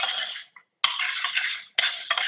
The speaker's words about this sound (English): So we add the salt now after the black beans are cooked. A little salt and pepper. We stir this up with the oregano.